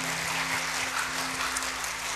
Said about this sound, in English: give the Lord a hand clap today.